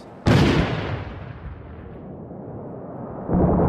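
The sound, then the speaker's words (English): Mortar fire in the video game Six Days in Fallujah: two heavy booming blasts, the first decaying into a long low rumble and the second striking near the end. “We gotta get inside. We gotta get inside. They're mortaring here.”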